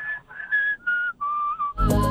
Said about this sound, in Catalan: Hòstia, ha xiulat molt bé, tio.